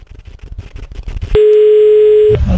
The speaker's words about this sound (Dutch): dat is zo iemand dat ik gewoon wel een keer kan proberen bellen en zien wat er gebeurt. Ik hoop dat hij oppakt.